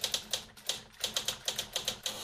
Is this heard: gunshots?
no